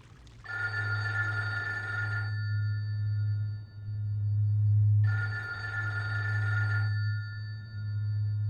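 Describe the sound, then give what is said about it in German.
Electronic telephone ringing: two long, bright trilling rings separated by a pause of a few seconds, heard over a steady low hum. “geht ja schon wieder keiner ran. Ach, Telefon.”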